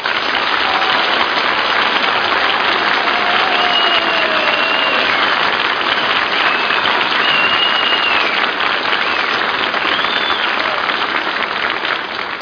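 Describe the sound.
Studio audience applause: dense, loud clapping from a large crowd holds steady at full strength without a break.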